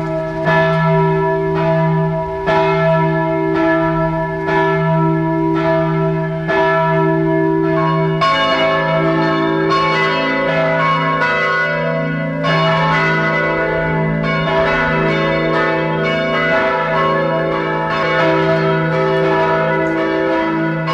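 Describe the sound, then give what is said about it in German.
Parish church bells in Bad Eisenkappel, Carinthia, ring out at noon from an old three-nave hall church: a loud, continuous peal of overlapping strikes over a deep humming tone, with the clanging growing busier about a third of the way through. “Es ist 12 Uhr. Sie hören die Glocken der Pfarrkirche St. Michael in Bad Eisenkappel in Kärnten.”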